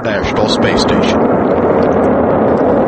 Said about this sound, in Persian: کشتی سپیس ایکس دراگون فالکون 9 از زمین بلند می شود و برای تامینات ایستگاه بین المللی کیهانی حرکت می کند.